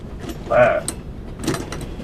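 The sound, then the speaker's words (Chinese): Metallic clacks as a box of 60 mm mortar shells is opened: two separate sharp knocks, the first with a brief ringing tone, over quiet background. “来， 行， 把炮弹箱子打开。”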